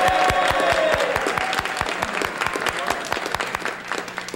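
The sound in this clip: Audience applause welcomes a guest on a country music TV show. The claps are fairly sparse and distinct, strong at first and thinning slightly, over a faint steady hum.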